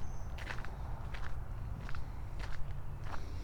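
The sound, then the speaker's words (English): Footsteps of people walking down a corridor: about five faint, evenly paced steps with soft crunchy attacks over a low, steady rumble. “I can hear them coming. They're walking down the odoriferous corridor.”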